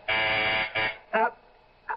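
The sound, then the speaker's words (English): An intercom phone buzzer rings up from downstairs: one long harsh buzz, then shorter bursts spaced apart, the later ones fainter. “That's the phone buzzer from downstairs, dear. I have to answer it.”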